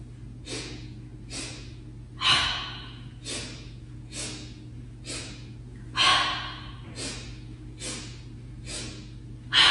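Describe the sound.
Breathing exercise with sharp, quick inhales and exhales through the nose, repeated many times in a steady rhythm, each a short airy burst with a few louder ones.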